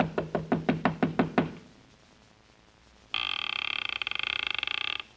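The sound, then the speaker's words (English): Knocking on a door in a deserted town: eight quick, evenly spaced raps. After a pause, a loud, continuous electric ringing lasts about two seconds. “The town seemed deserted, but I finally took a chance and knocked on a door.”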